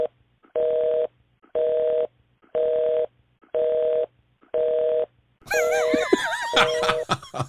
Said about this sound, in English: So it looks like we got a busy signal as our next caller